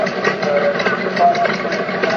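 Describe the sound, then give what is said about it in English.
A steam engine powering a Stuart Turner electric pump runs with a steady, even mechanical chugging, a continuous mid-range rumble with faint regular pulses throughout. “Stuart Turner Electric Pump. Electric? Yeah. Being powered by a steam engine.”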